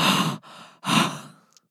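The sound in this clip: A voice imitates loud, heavy breathing with two strong, airy breaths separated by a brief gap. The second trails off, followed by a couple of faint small clicks.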